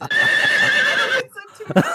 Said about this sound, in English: don't play the horse soundbite